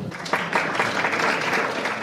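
Applause at an awards ceremony: a steady, moderately quiet patter of many hands clapping together for about two seconds.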